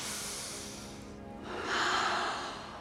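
Deep breathing in and out as a calming breath exercise: a long, soft airy breath, a brief lull, then a louder, hissing breath that swells and fades.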